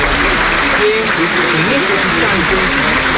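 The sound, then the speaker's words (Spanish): Steady, dense applause from delegations greets president-elect Keiko Fujimori at her swearing-in ceremony. The clapping holds loud and even throughout, beneath a speaking voice. “en estos momentos la presidenta electa Keiko Fujimori es recibida entre aplausos tanto por las delegaciones que han acudido a la juramentación”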